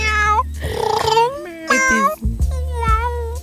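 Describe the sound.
A female cat meowing in a studio, several drawn-out, loud meows with wavering, bending pitch, following one another with barely a pause.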